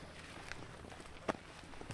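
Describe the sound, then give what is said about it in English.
Faint footsteps squelching through mud and the periphyton mat of a swampy Everglades area, a few soft, irregular steps with one sharper footfall standing out midway. “Walking through mud here.”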